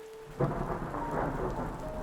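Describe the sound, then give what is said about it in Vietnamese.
Heavy rain pours down in a dense, steady hiss, and a low roll of thunder breaks in early and rumbles under the downpour. “bỗng dưng trời mưa ngày thêm nặng hạt, trút xuống ào ào như thác đổ, làm cho không gian mờ mịt hẳn đi.”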